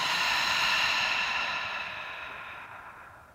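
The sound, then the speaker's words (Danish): A deep breath taken during a guided floor stretching exercise: a single long, airy whoosh of breath, heard alone, that gradually fades away. “Der er lige en dyb indånding her. Og en udånding.”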